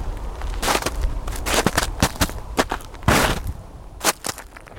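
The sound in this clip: Footsteps of a man crossing snow-covered, frozen Lake Mendota in Madison, with many irregular crunching steps and sharp crackles, fairly loud and uneven in rhythm.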